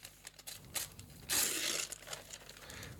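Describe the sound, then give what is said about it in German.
Paper crinkles and tears as a gift magazine is unwrapped. Steady rustling builds into one loud burst of crumpling and ripping near the middle, then settles back into quieter crinkling. “So, aber jetzt haben wir noch ein Geschenk bekommen. Wir packen das noch aus. Es ist eine Zeitschrift.”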